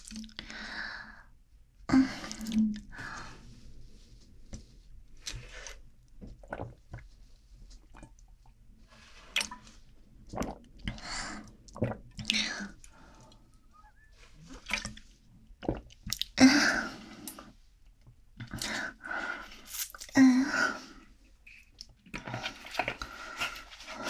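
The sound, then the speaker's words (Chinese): Someone downing a whole drink in gulps, a long irregular series of faint wet swallows, slurps and small breaths with quiet gaps between them. “好吧，那既然是你特意点的。那我喝光好了。”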